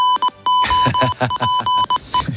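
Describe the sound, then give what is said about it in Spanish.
The goal alert jingle from the Spanish radio sports show Tiempo de Juego plays as a loud, busy run of rapid electronic beeps and bright tones over a pulsing, chopped rhythm. “Suena el aviso de gol de tiempo de juego. Correcto, gol en la SEPI.”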